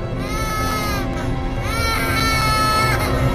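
A baby crying in the distance, continuous wailing with rising and falling cries over a steady low rumble, unbroken for the whole stretch.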